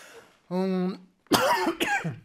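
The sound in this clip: A person coughing: a short voiced groan, then two harsh, loud bursts of coughing close together.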